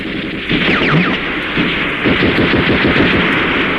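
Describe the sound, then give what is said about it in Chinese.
Heavy gunfire and cannon fire in a battle, enemy guns shelling toward a village; after a brief lull, many sharp, loud reports pound in rapid, overlapping bursts that continue to the end. “大炮！大炮啊！”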